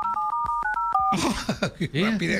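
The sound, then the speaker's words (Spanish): Someone redials a phone number on a keypad, producing a quick run of several clipped two-tone beeps at a brisk, even pace, followed by voices talking. “A ver, déjale, marco otra vez.”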